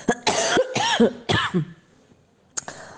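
Hard coughing from a person ill with bronchitis during an epidemic. A few loud, rasping bursts come in quick succession, then a quiet stretch, then one short final cough.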